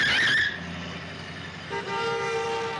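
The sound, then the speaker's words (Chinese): A car horn honks as a car nearly hits them: a loud, sustained blare that shifts into a different, steadier tone partway through and keeps sounding to the end. “look out for that car!”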